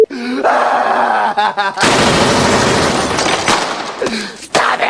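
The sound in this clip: Gunfire erupts as loud, dense, rapid bursts and keeps going for several seconds, preceded by a short stretch of voices.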